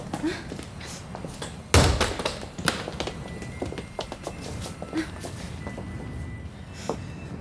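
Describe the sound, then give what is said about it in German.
A single sharp thud as a model boat is thrown onto a barricade, followed by a few lighter knocks and scattered rustling. “Das ist das Modellboot. Werfen Sie es auf die Barrikade.”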